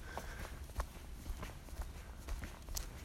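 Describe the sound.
Footsteps of a hiker walking along a woodland trail: faint, soft crunching steps at a loose, uneven pace, with no talking.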